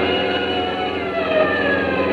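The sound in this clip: Police car sirens wail in a steady, loud, unbroken tone throughout, with no voices over them.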